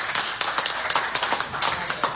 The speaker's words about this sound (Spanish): Que le brindamos un aplauso.